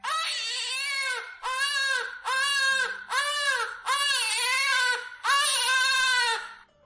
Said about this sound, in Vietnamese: Hai tiếng trẻ con khóc toáng lên làm Tiêu Thanh Tuyền